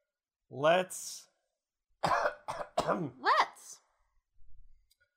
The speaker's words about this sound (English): I'm still cutting out the gross coughing.